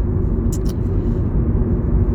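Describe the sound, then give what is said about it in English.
A car's engine and road noise while driving: a loud, steady low rumble runs unbroken throughout, with two faint, brief high clicks early on. “Sorry about the noise. I'm driving to some stores to take care of some business”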